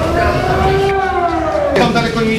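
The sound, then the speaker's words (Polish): Civil defense sirens wail across Wrocław during a city-wide drone attack drill, a loud sustained tone whose pitch slowly glides downward. “We Wrocławiu dziś ćwiczenia służb na wypadek ataku dronowego. W całym mieście zawyły syreny.”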